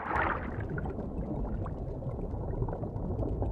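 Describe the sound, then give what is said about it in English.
A stream of air bubbles swirls underwater in front of a green turtle's head, making a faint, continuous gurgling wash with a brighter bubbling burst at the start. “A stream of air bubbles whirl round in front of the turtle's head.”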